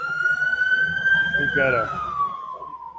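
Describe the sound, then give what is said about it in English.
An emergency vehicle's siren wails as it passes by a cafe. The steady tone climbs slowly in pitch, then slides downward toward the end, with someone talking over it. “There you go, emergency vehicle going by. This is live at Odds Cafe, as I've mentioned.”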